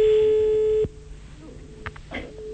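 Telephone ringback tone of an outgoing call: one steady, mid-pitched, buzzing tone holds for just under a second, then cuts off abruptly into faint background noise.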